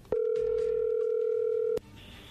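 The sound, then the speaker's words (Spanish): Telephone ring tone as a call goes through: one steady, clear mid-pitched tone holds for about a second and a half, then cuts off into a faint, higher tone. “ahí se está marcando, ahí entró la llamada.”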